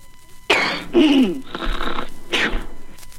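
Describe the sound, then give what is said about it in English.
A person sneezes with a sharp, breathy burst, followed by a few rasping, wheezy exhales and throat sounds. “Oh, bless you.”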